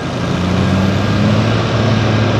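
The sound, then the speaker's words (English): Heavy truck hauling a shipping container pulls away at the Port of Jacksonville docks, a loud, steady, low engine rumble with a droning hum that holds for the whole moment. “Two guys in blaze orange vests quickly pin the container to the truck, and it takes off.”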